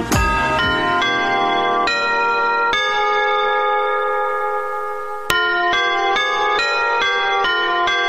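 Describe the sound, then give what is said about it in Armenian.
Bell chimes ring out the Yerevan city anthem from the city hall building: a melody of clear, resonant tones with a few quick opening notes, a long sustained note, then a steady run of evenly spaced notes. “Երևանի բոլոր վարչական շրջաններում առավոտյան 7-ից հնչելու են Երևանի հիմնի ղողանջները, այն նույն երաժշտությունը, որը ժամը 1 միանում է հենց քաղաքապետարանի շենքից։”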